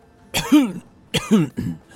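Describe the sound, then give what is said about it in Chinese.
An elderly man with a voice gone hoarse for several days clears his throat in a few rough, gravelly bursts, each a short, strained rasp with no talk in between. “他努力地清了清嗓子，哑着声音说：”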